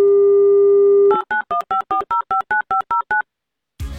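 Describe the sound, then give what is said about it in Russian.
A telephone dial tone in a quiz game as the host calls a contestant. The steady tone breaks off into eleven quick, evenly spaced keypad beeps, then a short burst of noise follows after a pause. “Итак, звоним уважаемому Сергею.”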